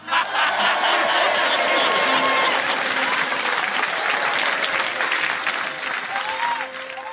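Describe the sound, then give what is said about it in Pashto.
An audience applauds a speaker with dense, sustained clapping from many hands. It stays loud and full for most of the stretch and eases slightly toward the end. “لکه خبرې خو دغه کس کوي، لاسونه ورته وپړکوه.”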